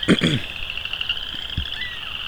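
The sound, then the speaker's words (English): A dense chorus of western chorus frogs forms a steady, high trilling band that runs through the whole clip, with a few low, brief thumps underneath. “Probably western chorus frogs. Though I don't know if they've solved the whole western versus boreal chorus frog thing”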